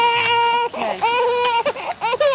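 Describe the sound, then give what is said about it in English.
Toddlers in pushchairs cry in loud, high wailing bursts, sustained sobbing cries broken by brief catches of breath. “Claire Balding and a bunch of toddlers in pushchairs”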